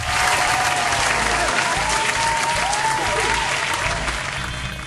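Studio audience applause at a quiz show as a contestant advances to the semifinal: dense, steady clapping that holds at an even level throughout and tapers slightly near the end.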